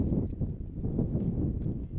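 Wind blowing across an outdoor high school baseball field, heard as a continuous low rumbling roar of gusts buffeting the microphone, swelling and easing slightly but never stopping.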